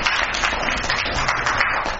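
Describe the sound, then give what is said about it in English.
Applause from attendees of a senate meeting after legislation passes, a thick, even wash of clapping that holds steady and loud throughout. “So give yourselves a round of applause.”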